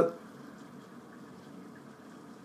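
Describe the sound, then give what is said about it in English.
Water runs through a pipe from a shower in use, a steady, low, continuous hiss and rush that holds at an even level throughout. “No, I think someone's taking a shower. So we have the water pipe right here.”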